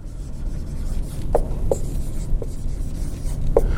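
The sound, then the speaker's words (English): Handwriting during a business finance lecture, as a discount rate is written out: continuous scratchy rubbing of a writing tool, broken by a few sharp little taps. “Now I'm going to write a discount rate right here.”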